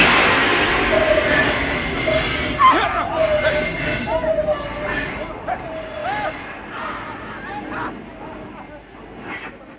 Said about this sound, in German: Sobald ich jetzt sage, in dem Augenblick, ziehen Sie die Notbremse.